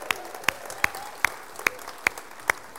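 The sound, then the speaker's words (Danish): Clapping welcomes guests at a gathering: seven sharp, evenly spaced claps in a slow, steady rhythm. “vi giver en hånd. Velkommen.”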